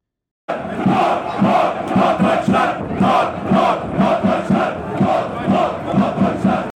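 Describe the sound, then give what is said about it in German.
VfB Lübeck football fans chant in the home stand, their massed voices pulsing in a steady, driving rhythm. Loud, regular swells repeat many times without a break. “Ja, man hört es einfach raus. Also die Fans, also gerade die Heimkurve, die Pappelkurve”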